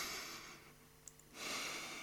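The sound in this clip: Slow, soft breathing in and out: a long airy breath, a quiet pause, then another long breath, hushed and hiss-like.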